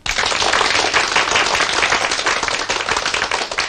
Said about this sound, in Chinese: 你们热烈鼓掌，这个掌是可以鼓的。